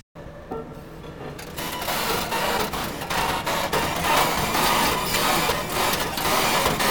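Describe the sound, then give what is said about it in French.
Construction machinery at work, played back from a field recording: a dense, continuous mechanical rattle and grind that holds steady and fairly loud throughout. “Putain, mais cette machine de travaux fait des bruits incroyables. Tiens, d'ailleurs, j'en ai une de machine de travaux là.”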